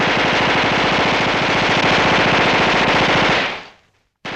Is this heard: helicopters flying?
no